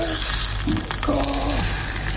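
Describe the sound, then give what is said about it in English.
Butter browning in a pan sizzles with a continuous, fairly loud crackling hiss. “And then now I'm gonna brown some butter.”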